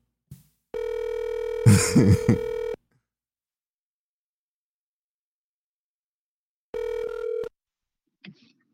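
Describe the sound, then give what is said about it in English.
Electronic ringing of an outgoing video call: two ring bursts separated by a long silence, the first about two seconds and the second shorter, followed by a faint click. “I'm calling Dave because I said I miss Dave.”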